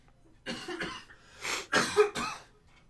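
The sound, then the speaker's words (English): A person coughs a few times in short, harsh bursts with brief pauses between them, fairly faint and with no talk. “You're coughing and I'm sniffing.”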